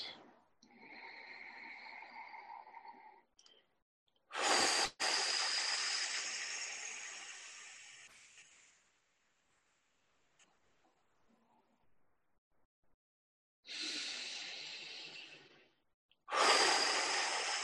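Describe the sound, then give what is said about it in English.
Slow, deep breathing during a relaxation exercise, with a few long, airy inhales and exhales, loud and breathy, separated by quiet pauses. “Maybe let's take a couple of good deep breaths.”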